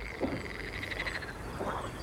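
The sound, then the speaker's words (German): Frogs croaking in a pond in the evening: a soft, steady trilling chorus runs throughout, and two deeper croaks stand out, one near the start and one near the end. “als es Abend wird, da beginnen die Frösche im Teich ein richtiges Froschkonzert.”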